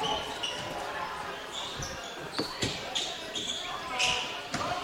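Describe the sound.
A basketball being dribbled on the court during a game gives several sharp, bouncing thuds in a loose rhythm, heard under a commentator's continuous talk.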